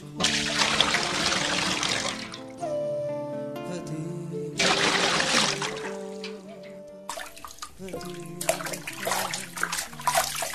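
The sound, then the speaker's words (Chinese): A priest washes his hands and feet with water at a basin, making a few loud bursts of splashing and running water separated by quieter gaps, with sustained musical tones playing underneath. “你看，祭司已经在那里洗手洗脚了，你快去问问他问题吧。”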